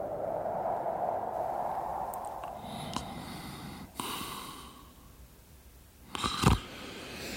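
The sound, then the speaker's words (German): A person snoring at night during a snowstorm: slow, raspy breaths drawn over several seconds, ending in a louder snort. The breathing is quiet and there is no speech. “Mein Gott, Sie schnarchen ja.”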